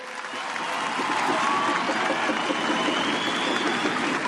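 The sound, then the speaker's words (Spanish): Audience applause for a person being honoured, a steady wash of clapping that swells over the first second and then holds loud and even to the end. “Así que, por favor, darle el aplauso que se merece”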